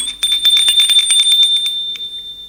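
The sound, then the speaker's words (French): A doorbell rings at a home in the evening, a bright, high metallic ringing with rapid rattling strikes. It carries on for about two seconds, then weakens and stops. “Un soir, Jules sonne chez Véronique.”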